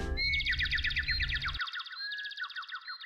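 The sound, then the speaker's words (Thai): Robin call: a rapid run of high, clear whistled chirps and trills, with a low rumble underneath for the first half that cuts off abruptly. “น้องๆครับ สัตว์ชนิดนั้นมันก็คือ นกโรบินนั่นเองครับ”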